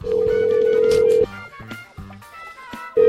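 A telephone speed-dials a call: a steady, loud dial tone is followed by a run of short stepped dialing beeps at varying pitches. The steady tone returns at the end.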